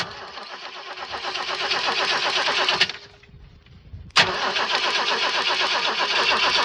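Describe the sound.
A car engine cold-starts with its starter motor. The running engine falls quiet for about a second, then fires again with an abrupt, loud burst and settles into a steady, busy rumble.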